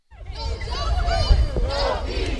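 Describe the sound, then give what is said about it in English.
Around 300 demonstrators at a protest in downtown Minneapolis over the death of 18-year-old Michael Brown shout together in a loud, sustained crowd roar that swells up quickly after a brief silence. “A crowd of around 300 demonstrators gathered in downtown Minneapolis under cloudy, drizzling skies last week to express frustration, sorrow, and anger over the death of 18-year-old Michael Brown”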